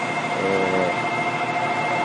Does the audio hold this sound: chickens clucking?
no